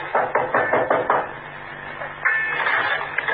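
Knocking on a door at a boat-hire landing: a quick, rhythmic series of sharp knocks at the start, followed by a steadier, rougher background noise.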